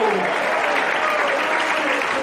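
A church audience claps together in a loud, dense, unbroken burst of applause that stays level for the whole stretch.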